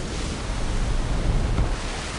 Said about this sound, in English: the way the ocean would sound if the ship wasn't there, the ocean itself, the crashing waves, the gigantic swells,